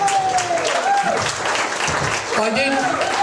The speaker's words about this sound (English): Big hand for Andrew. Does a great job.